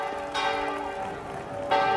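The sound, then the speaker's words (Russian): A church bell swings in the upper tier of a bell tower, giving two bright strikes whose ringing tones hum and slowly fade between blows. “На верхнем ярусе колокольни вращается колокол.”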